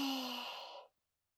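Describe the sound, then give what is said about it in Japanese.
A single deep exhale during a guided deep-breathing exercise, a soft, airy sigh that holds steady for under a second before fading quickly into silence. “うん、深呼吸。いくよ。吸って、吐いて、”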